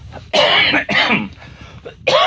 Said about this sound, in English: I hate coughing into that mic.